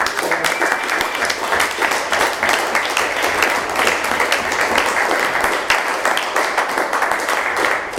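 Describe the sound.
An audience applauds to welcome a speaker, a dense, even wash of clapping that holds steady and loud from start to finish.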